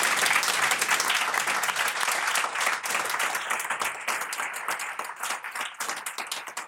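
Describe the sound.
Audience applause for the speakers at the close of a panel discussion: dense, continuous clapping that holds steady throughout, with no voices over it.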